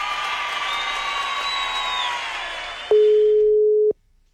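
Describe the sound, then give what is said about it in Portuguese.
A single steady phone ringing tone, loud and level for about a second, sounds on a call after a stretch of crowd-like noise fades out, then cuts off abruptly. “A Gabi tá pedindo o Manuel também, hein? Vamos ver se ele vai atender.”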